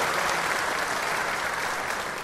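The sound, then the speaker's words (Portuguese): An audience applauds a state deputy receiving an honorary order at an official ceremony in Paraná, Brazil. Dense, steady clapping fills the whole moment and eases off slightly at the end. “Uma salva de palmas novamente, deputado Ademar Luiz Traiano.”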